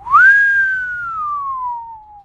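A single long whistle from football players at a training ground, a clear tone that rises quickly, then glides slowly downward and fades after about two seconds.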